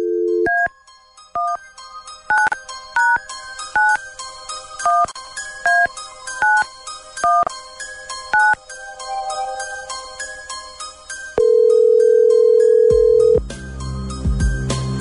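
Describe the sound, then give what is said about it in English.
Telephone number dialed on a keypad: a long run of many short, clipped two-tone beeps in an uneven rhythm, then a single steady, mid-pitched ringing tone of about two seconds, followed by a faint noisy line. “Dialing at random.”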